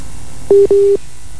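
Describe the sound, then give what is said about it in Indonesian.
Telephone line tones as the call drops and reconnects: two short, steady, mid-pitched electronic beeps in quick succession, the second one longer. “Dia menghubungkan ulang, terputus dan tersambung kembali.”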